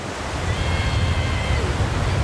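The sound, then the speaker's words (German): Sea swell and surf on the Belgian North Sea coast, a light swell off a beach: a continuous, loud, broad wash of rushing water with a steady low rumble underneath. “Leichte Dünung, das Wasser flaschengrün und nicht mehr zu kalt.”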